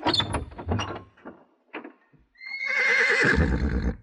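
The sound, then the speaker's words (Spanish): A jet-black horse lets out a long, loud, high, quavering whinny. It follows a few short, scattered knocks and snorting sounds with brief silences between them. “¿Acaso le tienes miedo al caballo prieto azabache?”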